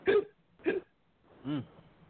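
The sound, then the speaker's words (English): Hiccups, three short voiced catches in the throat: two quick, sharp ones close together, then after a pause a longer one with a lower pitch. “With the hiccups and all”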